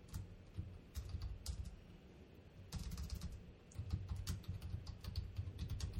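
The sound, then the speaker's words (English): Someone types a search on a computer keyboard: many quick, light keystrokes in irregular bursts with short pauses between them, faint throughout. “if we type a search”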